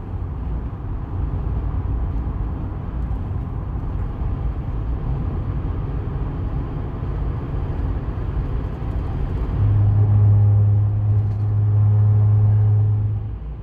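Road traffic rumble runs steadily throughout as a dense low roar, with a heavier, louder engine drone rising in for a few seconds near the end before easing back.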